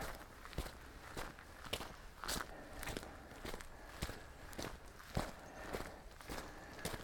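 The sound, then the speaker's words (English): Footsteps of a hiker heading uphill on a Forest Service road on the Leatherwood Creek Loop near Toccoa, Georgia: faint, even crunching steps in a steady walking rhythm throughout. “Okay. We're still on the Forest Service Road going back uphill.”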